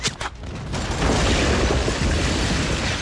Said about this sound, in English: It detonates deep into the enemy's ranks.